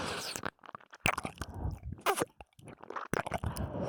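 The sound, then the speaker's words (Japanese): Someone eagerly chewing and eating, with many irregular wet crunches, bites and smacking sounds, fairly loud and close, with brief pauses between bursts. “むしゃぶりついてる。うん、おいしい、おいしいって”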